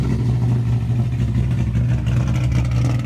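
Engine of a time attack race car with an aggressive sound: a loud, steady, low rumbling drone with no distinct revs, holding constant throughout.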